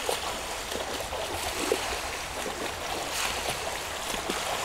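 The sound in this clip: Water washes and trickles steadily around a boat floating on its first launch in early September, an even, continuous noise with no distinct splashes or voices.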